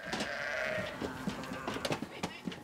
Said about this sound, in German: 800 Schafe gehören zur Herde. Die steht aber draußen auf der Weide. In die Scheune werden nur die Problemfälle geholt. Sobald Lämmer und Mütter wieder fit sind, kommen sie zurück.